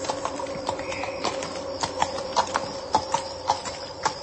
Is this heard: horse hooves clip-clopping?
yes